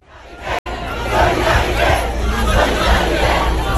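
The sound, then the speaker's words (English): A crowd of protesters at a demonstration over the state of French schools in France makes a loud, dense roar of many voices and shouting. It holds steady apart from a brief cut-out near the start. “That's the sound of more demonstrations over the state of French schools,”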